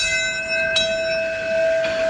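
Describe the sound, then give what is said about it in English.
A memorial bell tolled by a firefighter marking the first attack on the Twin Towers: a sustained, ringing metallic tone with two distinct strikes about a second apart. “A New York firefighter was the first to toll a bell that marked the first attack on the Twin Towers at 8:46 a.m. on September 11th.”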